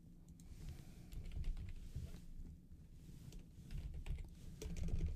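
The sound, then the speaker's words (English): Faint, steady typing on a computer keyboard as a question is entered, a continuous stream of soft keystrokes with small bursts and pauses, no voices. “So I just typed in the sum of units here, and in this particular example, just gave us an answer for that.”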